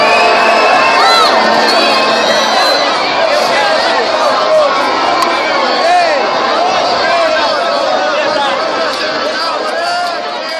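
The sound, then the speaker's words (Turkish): A street crowd on Azpilicueta street cheers and shouts after Brazil's 2-1 World Cup win over Colombia, a continuous loud roar of many voices with high yells and shrieks rising out of it. “Aspicueta sokağının çığlıkları bu şekildeydi.”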